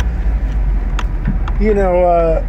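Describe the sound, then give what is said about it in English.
Low, steady engine rumble of a car pulling away from a Taco Bell drive-through, with a few faint clicks and a voice rising over the hum near the end. “Okay, I got my bag. I'm driving away.”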